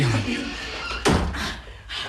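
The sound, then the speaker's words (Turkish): A door is shut with a single sharp thud partway through, set among voices talking. “Kapıyı kapayalım. Kapıyı oğlum. Kapıyı alalım.”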